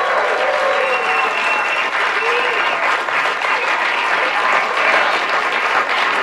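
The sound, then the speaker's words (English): A studio audience at the BYU Broadcasting Building in Provo, Utah applauds and cheers, dense loud clapping running steadily throughout with a few whoops mixed in early on. “We have a great studio audience with us. You've seen them, you've heard them. Let's see them and hear them again, shall we?”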